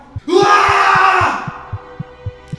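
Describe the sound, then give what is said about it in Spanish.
A man screams desperately on waking beside a skull in a cemetery grave. The single loud, drawn-out shriek lasts about a second over a steady series of low, regular thumping pulses that continue after it ends. “Cuando despierta de nuevo, lo primero que ve es una calavera a su lado y grita desesperadamente.”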